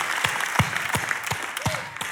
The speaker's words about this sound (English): I can't stop clapping. I just get happy when I think about it.